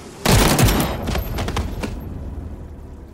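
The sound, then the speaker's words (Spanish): A firing squad's volley of gunfire erupts as one loud, ragged burst of several overlapping shots, then trails off in a rolling, fading rumble. “A mi orden. ¿Listos? De cerquita, pa' que no fallen, pendejos. ¡Disparen!”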